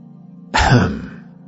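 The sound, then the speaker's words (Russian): One short, harsh throat clearing bursts out over a faint steady low hum and trails off within about half a second. “«Ты можешь прочищать горло сколько угодно.”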